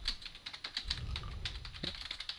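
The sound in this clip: Typing on a computer keyboard: a steady run of many quick, crisp key clicks with an uneven rhythm over a low background rumble, with no talk.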